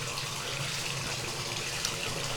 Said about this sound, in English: And now the bathtub's getting a little full, so we can turn the water off, I guess.